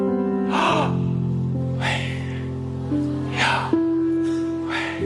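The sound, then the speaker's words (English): A voice imitates breathing with slow, alternating inhales and exhales. Four airy, breathy rushes sound over a sustained, steady tonal drone. “imitates the natural act of breathing as you inhale and exhale. So this is how YHWH sounds like.”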